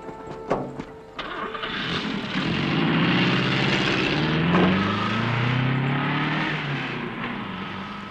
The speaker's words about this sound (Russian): садится в машину